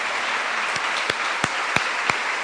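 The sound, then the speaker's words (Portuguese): Congregation clapping in praise at a church service: steady, dense applause throughout, with a few sharper individual claps standing out from the wash. No voices are heard. “Então vamos louvar ao Senhor com uma salva de palmas, porque Ele é bom”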